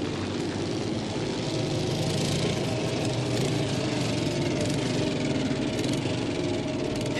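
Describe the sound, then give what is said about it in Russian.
Motorcycle engine running, heard as a steady, dense mechanical drone that holds an even loudness throughout with no clear change in pitch. “Мотоциклист толкает его ногой. Уезжает.”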